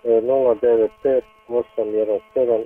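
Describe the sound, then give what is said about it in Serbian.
Sheep and lambs bleating, with several loud, wavering, nasal calls following one another with brief gaps between them. “Prodajem manje stada ovaca sa janjcima, dvije krave, moguća zamjena za razne.”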